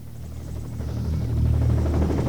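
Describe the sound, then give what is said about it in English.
Helicopter descending into a jungle clearing, a deep rhythmic rotor thump and buzzing drone that steadily grows louder. “The sight's crosshairs are lined up with Beckett, who's going to be first to get to the chopper that's descending into the clearing up ahead.”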